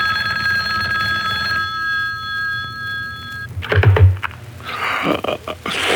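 A telephone bell rings late at night, a sustained ring lasting a few seconds that stops abruptly, followed by a thump and rustling handling noises.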